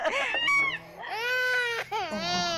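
An infant cries in loud, continuous wailing, broken into three long bursts with brief catches between them.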